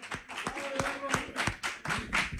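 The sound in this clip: A small group claps in a steady rhythm, giving a round of applause to a man who just won a draw. The sharp claps repeat several times over overlapping voices and a brief held tone.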